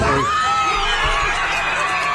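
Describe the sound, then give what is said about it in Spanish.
A crowd cheers wildly after a World Cup final, a dense, steady roar of many overlapping shouting and whooping voices that stays loud without a break from start to finish. “¿Ves? A la gente está vuelta loca.”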